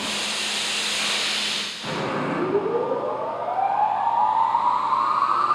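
Turbines of a pneumatic garbage vacuum system starting up: a steady rushing noise briefly dips, then a whine rises gradually and continuously in pitch over several seconds as the machinery spins up.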